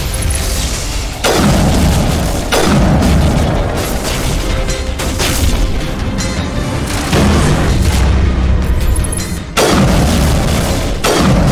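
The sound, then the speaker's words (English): Sniper rifle gunshots from a video game ring out as four heavy, booming shots spaced irregularly. Each one is loud and sharp, followed by a lingering low rumble between the shots. “Okay, so we're just putting bullet after bullet into this thing.”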